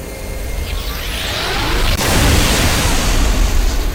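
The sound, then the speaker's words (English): The Spartan laser from the video game Halo, a sweeping whine that builds and then gives way to a loud, sustained roaring blast as the weapon fires. “Jesus, a laser of some type? It is a laser. It is the Spartan laser.”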